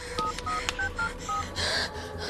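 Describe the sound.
Keypad tones from a cell phone being dialed: a quick run of short, steady electronic beeps, each at its own pitch, followed by a brief noisy rustle.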